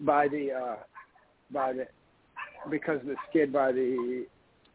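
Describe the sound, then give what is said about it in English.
Dogs bark, yip and whimper inside a house in a few separate bursts, the barks fairly strong and the whines slightly tonal, on a thin, band-limited recording. “I'm sorry, I have dogs going crazy in my house for no reason, and they love to wait until I get into right in the middle of the podcast”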